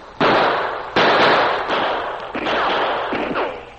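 Gunshots ring out in a shootout between men firing from cover. Several loud, booming cracks each trail off into a long rumbling decay, with no voices over them.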